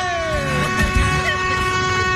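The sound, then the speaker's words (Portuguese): Vehicle horns honking to announce arriving cars, a loud, steady, sustained blare that holds unbroken through the whole stretch over a low rumbling background. “Os cornos tá tudo buzinando pra dizer que tá chegando.”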